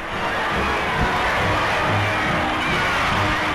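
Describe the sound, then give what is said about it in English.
A crowd roars its welcome as 23-year-old pianist Van Cliburn parades up Broadway from the Battery in New York. The noise is dense, loud and steady throughout, with no distinct voices. “Van Cliborn, the musical conqueror of Moscow, returns to a hero's welcome in New York. He follows the traditional route of Lindbergh and other men of accomplishment up Broadway from the Battery.”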